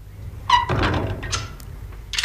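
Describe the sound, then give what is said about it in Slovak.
A door is shut and locked: a short squeak and a solid thunk, followed by a couple of brief, sharp clicks. “Čo to robíte, človeče? Bože na nebi, zamkol? Zamkol. V našom dome. Otvorte!”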